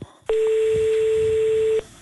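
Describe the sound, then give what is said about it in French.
Telephone line tone while calling a toll-free helpline: a single loud, steady, unbroken beep lasting about a second and a half that starts and stops abruptly. “On va appeler ce numéro vert.”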